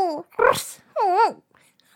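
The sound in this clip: A voice imitates a dog, as someone in a Halloween dog costume gives a few short, pitched bark-like yelps, with a swooping vocal sound in the middle.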